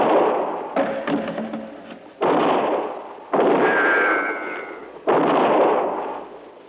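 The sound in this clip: Several loud gunshots fire at uneven intervals, each a sharp blast followed by a long decaying rumble. The sound is band-limited and old-sounding, with no talk between the shots.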